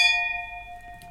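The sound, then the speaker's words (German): Wine glasses clinking in a toast with Riesling: a single bright strike that rings on in a clear, steady tone and slowly fades, heard alone. “Und ja, lass uns doch mal anstoßen an dem.”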